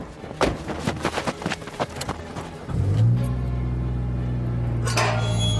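A car engine turns over and catches after a series of sharp knocks and thumps, then settles into a loud, deep, steady rumble, with a brief rev lifting the pitch near the end.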